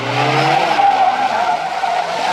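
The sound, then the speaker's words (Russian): A car reverses at speed after someone on foot, its engine whining loudly over a skidding screech of tires, steady and unbroken throughout. “Машина задним ходом едет за ним.”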